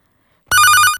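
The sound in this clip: A telephone rings for an incoming call: one short, loud electronic burst of rapid warbling trills lasting about half a second, heard alone with no talk.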